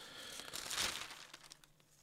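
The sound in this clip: A page of the Avvenire newspaper being turned: a faint, brief papery rustle and crinkle that swells in the middle and fades away.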